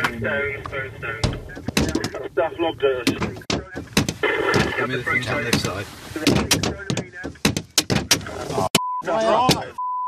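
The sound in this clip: Eggs and then rocks hitting a truck during an attack on a Top Gear crew: many sharp thuds and cracks strike irregularly throughout, mixed with vehicle noise and agitated voices.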